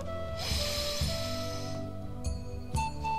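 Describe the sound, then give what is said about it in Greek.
A deep inhalation during a breathing exercise: one long, airy, rushing breath drawn in for over a second, then quieter, and a few brief soft clicks follow. “Πάμε πάλι. Εισπνοή βαθιά.”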